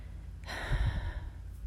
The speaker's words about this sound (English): let's take the first deep breath